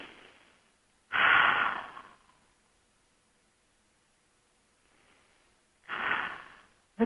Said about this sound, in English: A couple of deep breaths.